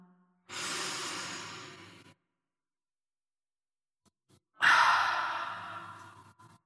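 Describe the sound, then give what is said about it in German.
Two breaths during a guided breathing exercise, separated by a silent pause: a steady airy breath, then a louder sighing exhale through the mouth with an open ah quality that starts strong and fades. “einatmen durch die Nase, Luft anhalten und ausatmen durch den Mund mit Ah.”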